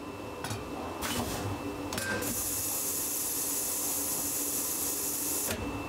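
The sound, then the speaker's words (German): A disgorging machine pulls the crown cap off a bottle under 6 bar pressure and the yeast is forced out. A few mechanical clacks come first, then a loud, steady hiss runs for about three seconds and cuts off abruptly. “Die Degorgiermaschine entfernt den Kronkorken und durch die 6 Bar Druck in der Flasche wird die Hefe rauskatapultiert.”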